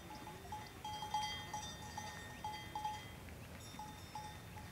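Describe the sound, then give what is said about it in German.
Small bells clink faintly and irregularly as a herd of sheep and goats heads out to graze on highland grassland, the light metallic tinkles scattered over a soft, steady outdoor hiss. “Nach dem Einräumen der Vorräte zieht Lodge mit der Herde raus auf das Grasland der Hochebene.”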